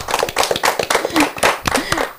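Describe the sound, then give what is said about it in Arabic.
Audience clapping at a primary school event after a poetry recitation, with many sharp, fairly regular hand claps in quick succession and some light voice sounds mixed in. “يعطيك الصحة، برافو، صفق عليها.”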